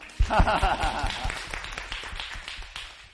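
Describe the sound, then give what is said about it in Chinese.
Applause from a church audience: many quick overlapping claps in a steady patter that starts abruptly and gradually thins out. “给他一个掌声吗？”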